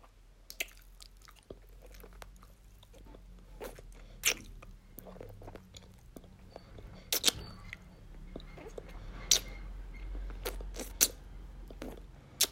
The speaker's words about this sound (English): May I lick it? Please? Oh, thank you.